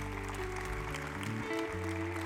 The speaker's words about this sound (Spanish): Le damos un aplauso al Padre Celestial.